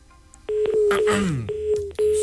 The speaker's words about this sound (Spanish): Ah, se le marcó el ocupado.